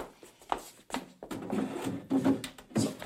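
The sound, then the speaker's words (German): Drawers being opened and closed give off a few woody sliding scrapes and knocks, with a longer grinding rub toward the end, moderately loud and with no talk. “Komm, hilf mir bei den Schubladen.”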